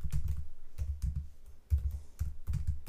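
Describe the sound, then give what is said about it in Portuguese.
Typing on a computer keyboard: many quick key clicks in uneven bursts with short pauses between, fairly soft, with no voices. “Estou aqui a escrever, vocês devem estar a ouvir.”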